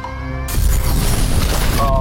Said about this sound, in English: There goes the bomb.